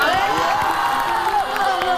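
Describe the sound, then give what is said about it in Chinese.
Audience cheering and applause greet the second chef on a cooking show. Whoops and shouting voices ride over continuous clapping at a steady, lively level. “我们掌声有请第二位大厨。”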